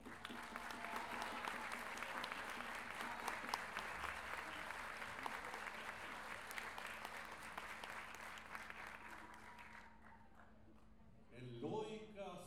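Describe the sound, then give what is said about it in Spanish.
Audience applause at a gathering of payadores (improvising folk verse singers) in Lo Barnechea. Steady, dense clapping holds for about ten seconds, then thins out and fades, with a voice coming in at the end. “Quiero que recibamos con un gran aplauso también a un amigo mío y hermano mío”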